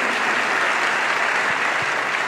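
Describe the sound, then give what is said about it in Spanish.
A church audience applauds during a service, with dense, steady clapping that fills the whole stretch at an even, fairly loud level. “¿Puedes aplaudir al Señor?”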